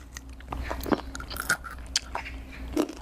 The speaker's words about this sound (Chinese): 能吃到菠菜的味道， 我尝一下。